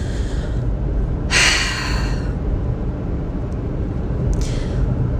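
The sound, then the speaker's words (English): A person takes two audible breaths, each a short airy rush of air, the first stronger than the second, over a steady low rumble of background noise. “let me pause for a second. I'm gonna just take a breath because I've been talking for a long ass time.”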